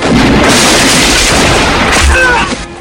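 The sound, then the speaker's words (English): Gunshots from a film shootout sound as a dense, loud, continuous wash of booming blasts with heavy low rumble, the individual shots running together for nearly three seconds before easing off at the end. “Marie draws her gun. Van Cleef fires, hitting the door. Marie falls and returns fire.”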